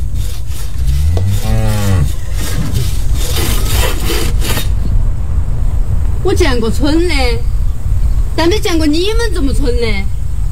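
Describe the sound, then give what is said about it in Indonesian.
Rough rasping saw strokes cutting, heard as a few coarse bursts set among drawn-out voiced vocal sounds that rise and fall before and after them. “Digergaji Bapak Saudara. Ah. Digergaji.”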